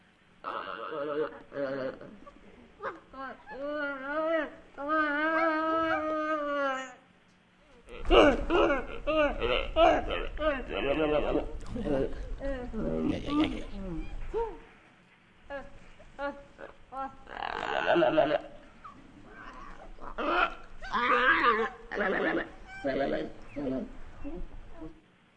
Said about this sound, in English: Now, see, if that was a conversation between two geladas, that would make perfect sense to me.